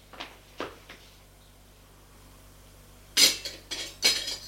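Cutlery is set down on a table with a clatter. A few faint taps come first, then louder metallic clinks and rattles burst out in quick succession near the end.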